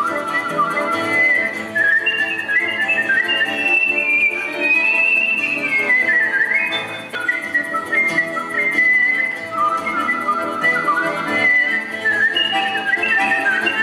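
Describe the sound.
A competitive whistler whistles a long, continuous tune. The clear, bright melody rises and falls in pitch without a break and is heard alone, with no talking.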